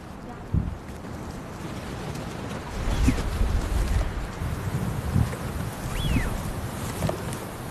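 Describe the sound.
Eurasian wigeon calling outdoors: two clear whistles, each sliding downward, rise above strong, steady wind noise that rumbles throughout.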